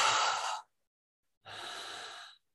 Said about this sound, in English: So just take a deep breath in and out.